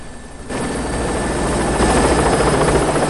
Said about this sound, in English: An armed policeman on the rooftop sees the chopper lift off and soar away.